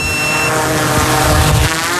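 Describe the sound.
A drone with a thermal camera, used early in the morning to search fields for fawns, takes off and flies: a loud, dense buzzing whine of rotors with shifting tonal hum, continuous throughout.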